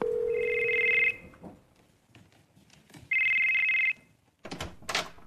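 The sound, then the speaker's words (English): A phone ringtone sounds in two steady, bright electronic bursts separated by a pause of about two seconds. It plays loud and alone, with no talk over it. “Your phone rang.”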